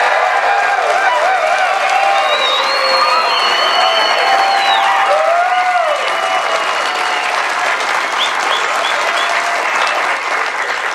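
A studio audience at a college football show on the BYU campus in Provo, Utah cheers and applauds, loud, dense clapping with whoops that carries on without a break through the whole stretch.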